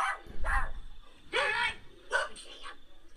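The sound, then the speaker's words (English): A person imitates a dog barking, giving a few short, harsh, yelping barks separated by brief pauses at a moderate level. “there's a dog, but there's a person that's making dog noises.”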